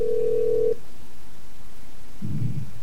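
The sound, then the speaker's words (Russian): A single short telephone tone, steady and low-pitched, sounds as a bank call-centre operator hangs up. It is followed by silence and then a brief low rumble. “К сожалению, я вынуждена повесить трубку, потому что вы общаетесь некорректно.”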